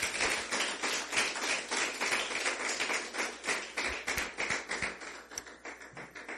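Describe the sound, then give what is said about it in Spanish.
Church audience clapping for the Lord in a steady, rhythmic beat, many sharp hand claps following one another at an even pace without a break. “Bueno, dale un aplauso al Señor, hermano.”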